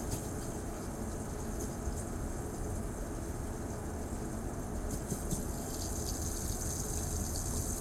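Water runs from a push-button tap into a washbasin as a faint, steady rushing hiss that carries on without a break throughout.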